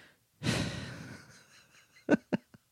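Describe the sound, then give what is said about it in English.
A deep breath drawn by a speaker: one long, loud breathy rush that fades over about a second and a half, followed by a few short, sharp bursts, with no talk. “I had to take a really big breath there.”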